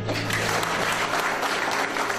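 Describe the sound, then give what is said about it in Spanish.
Loud, sustained applause from an audience welcoming a guest speaker, a thick unbroken wash of many hands clapping, with a faint low hum beneath. “le vamos a dar una cordial y calurosa bienvenida con fuertes palmas”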